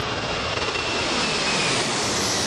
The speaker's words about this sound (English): That's the SIU Boeing 737 overflying.